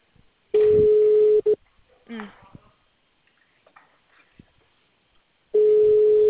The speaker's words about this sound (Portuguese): Eu acho que caiu a ligação, na verdade.